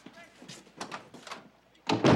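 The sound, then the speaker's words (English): A door is slammed shut with a single loud thud at the end, after a stretch of a man's talking. “He shuts the door in Dylan's face.”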